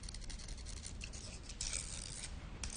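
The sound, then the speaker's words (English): Two chopsticks rubbed together in an apartment dining room make a faint, continuous dry rasping scrape with a steady, even texture. “Inside the apartment dining room, Katie eats while David rubs two chopsticks together.”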